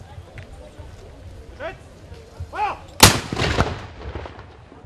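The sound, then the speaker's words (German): A pioneer battalion fires a single loud gun salute at the opening of a site with an original copper smelting furnace. A shouted voice comes just before the sharp blast, which trails off into a rumbling echo. “Zur Eröffnung ließ es das Mansfelder Pionierbataillon so richtig krachen. Achtung, wir schießen!”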